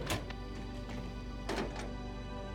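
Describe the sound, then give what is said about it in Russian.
A container lock is opened, giving a few short metallic clicks and thunks over a steady low background hum. “Вик открывает замок контейнера.”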